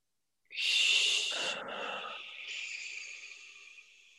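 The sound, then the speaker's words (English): A deep breath drawn in: one long, airy, hissing inhale lasts about four seconds, strong at first and then slowly easing, with no other sound. “So let's start to breathe in.”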